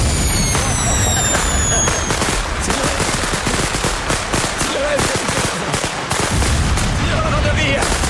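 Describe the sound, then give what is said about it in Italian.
A box of fireworks goes off in loud, dense, continuous crackling and popping bursts that run almost unbroken for several seconds. “Questa eh, scatola è piena di fuochi d'artifici, guarda.”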